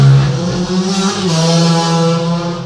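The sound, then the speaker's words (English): Two motorbikes race past outside with a loud, sustained engine roar. The revving drone carries a strong harmonic whine that shifts slightly in pitch and stays loud throughout. “boy race outside. Yeah. It seems about two motorbikes just went past. I'm sorry if your eardrums burst there.”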